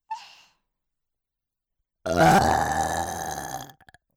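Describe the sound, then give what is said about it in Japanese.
A long, loud, deliberately performed voiced burp lasting over a second, coarse and rumbling. It is preceded by a short, faint breathy sound and followed by a couple of tiny trailing gulps. “ゲップ出ちゃった”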